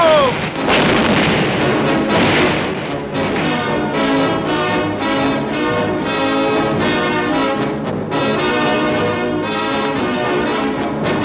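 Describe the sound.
Cannon fire in a battle against the English at Curaçao: a dense, continuous barrage of heavy booms and blasts, many overlapping, staying loud throughout.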